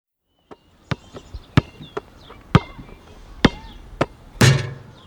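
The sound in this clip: A basketball bouncing, a string of sharp, hard thuds at an uneven pace, some stronger than others, ending in a brief, broader burst of noise.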